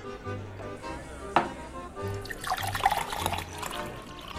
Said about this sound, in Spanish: ¡Ponme un vaso de vino!